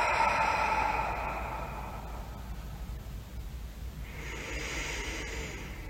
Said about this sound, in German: Atme tief durch die Nase ein und durch den geöffneten Mund aus.